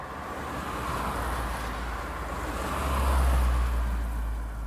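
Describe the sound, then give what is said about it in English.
Car driving out of Big Bend park toward Terlingua, Texas, a continuous low road rumble with airy wind noise, swelling slightly toward the end. “Okay, so we drive out of the park to Terlingua, Texas.”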